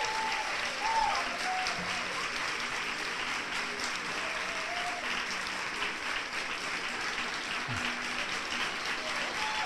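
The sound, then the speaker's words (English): A theatre audience at TheaterWorks applauds Richard Dreyfuss on stage. The clapping is steady and sustained, moderately quiet and even throughout, with no words over it. “Big hand for the audience, for Mr. Richard Dreyfuss.”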